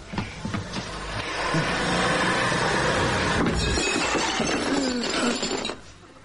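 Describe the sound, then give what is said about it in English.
Porcelain smashes after a vacuum cleaner cord catches it and knocks it over: a loud, sustained crash of breaking pieces with clinks and clatter lasting several seconds, then tailing off. “I'll smash his porcelain. Oh, no. He'll go berserk. Oh, it wasn't my fault. It was the vacuum cleaner. It was an accident. The cord caught round the legs.”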